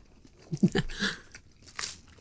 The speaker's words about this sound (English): I think that's tasting pretty good. That tastes very nice. Yep. Okay, one. Tastes good. Right. Sorry to eat in front of you.